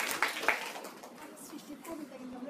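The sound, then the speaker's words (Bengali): Two sharp hand claps in quick succession, followed by people talking over faint background noise. “হ্যাঁ, সৃষ্টির জন্য একটা জোড়া হাত তালি।”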